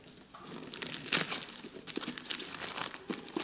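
Crinkling and crumpling of packaging as something is unpacked: a continuous papery rustle with crackly bursts, one louder flurry early on, then steady handling noise throughout.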